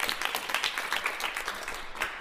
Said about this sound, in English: Congratulations, another round of applause, I think.